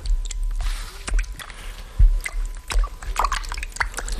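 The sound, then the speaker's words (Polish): Hands are washed thoroughly with soap under water: irregular wet squelches and rubbing, punctuated by a few sharper splashes and drips. “Tylko porządnie. A mnie pan to mówi? I mydłem. No przecież mydłem myję, co pan? Musi pani zmyć z rąk wszystkie zarazki.”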